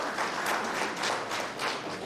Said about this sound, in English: Please, let's clap for Medira Diren and her team.